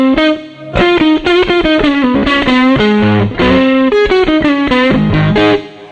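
Distorted electric guitar through a 1x15 combo amp with the treble turned all the way down, playing a steady run of notes and chords at a loud level. The playing breaks briefly near the start, then continues before fading at the end.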